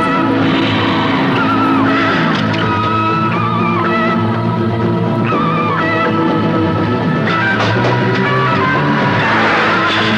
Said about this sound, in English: I don't know where they got these tire squealing noises.